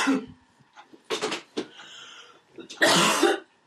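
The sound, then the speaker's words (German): Coughing from someone who swallowed something the wrong way and choked: a few harsh, rough coughing bursts separated by short pauses, ending in a longer, strained fit. “Oh, war ja voll verschluckt.”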